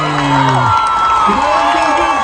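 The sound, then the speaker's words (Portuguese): Cape Verde football fans cheer for their national team at Praça Center. A loud, dense roar of shouting voices carries sliding, chanted notes and holds steady throughout. “Estamos aqui torcendo aqui no Praça Center, torcendo muito para os Tubarões Azuis.”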